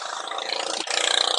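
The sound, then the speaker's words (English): A motorbike passing by gives a steady, broad engine roar with no talk, swelling a little louder in the second half. “The bike going by.”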